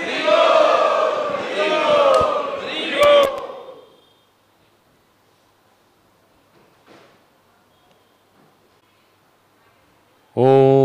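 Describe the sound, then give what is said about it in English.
At Sri Radha Gopinath Temple, a crowd loudly chants in unison as a traditional welcome for a visiting swami. The voices are full and strong for a few seconds, then drop to near silence before a single voice starts at the end. “So let us welcome His Holiness Bhakti Vigyan Swami Maharaj to Sri Radha Gopinath Temple in our traditional style by loudly chanting.”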